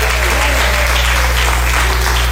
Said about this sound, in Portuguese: Quem crê, bate palmas e dá glória para Jesus.